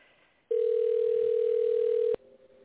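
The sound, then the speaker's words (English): A telephone dial tone sounds as a call is placed, a loud, steady single-pitched tone lasting about a second and a half before switching to a quieter, buzzier line sound. “We're going to try dialing her now.”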